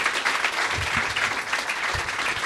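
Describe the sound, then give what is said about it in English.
Audience applause at a live comedy show, a dense, steady clatter of many hands clapping that holds at an even level for the whole stretch. “give Mick a big round of applause for a minute”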